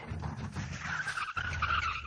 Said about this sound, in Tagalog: May sakyan ang miabot.